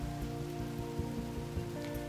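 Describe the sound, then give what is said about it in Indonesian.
Raindrops splash steadily on asphalt in a dense, even patter that holds at a constant level throughout, with no voices. “Mata Rama masih melihat rintik air hujan yang berlompatan di atas aspal”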